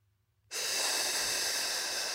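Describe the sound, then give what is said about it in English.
A slow, hissing exhalation through the mouth, used to relax: after a brief hush, a steady breathy hiss starts abruptly and holds loud and even to the end, with no voice over it. “And as I hear that hissing sound that I'm making myself, I imagine a tire, an overinflated tire, just relaxing.”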